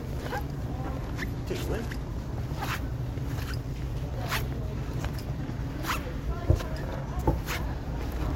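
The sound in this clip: Loud new shoes squeak while walking, producing many sharp, short chirps in an irregular stepping rhythm over a constant low rumble, with people talking alongside.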